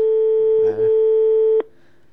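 A telephone line ringing on an outgoing call: one long, steady electronic tone holds for about one and a half seconds, then cuts off abruptly.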